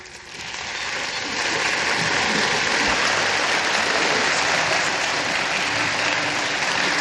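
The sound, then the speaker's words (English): Applause from a concert audience greeting the conductor of the American Youth Orchestra: dense, hissing clapping that swells over the first second, then holds steady and loud. “The audience is now greeting Mr. Dean Dixon, who is conducting the American Youth Orchestra in the compositions heard tonight.”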